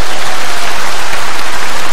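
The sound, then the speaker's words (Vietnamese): Dense, steady applause from a class of students at a teacher's call, a loud continuous wash of clapping with no gaps and no voices over it. “À, cho một tràng pháo tay.”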